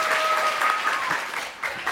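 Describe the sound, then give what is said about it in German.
Audience applause for a contestant at a lively party game, a dense burst of clapping that thins toward the end before a couple of brief, louder flurries. “Applaus für Mila, Leute.”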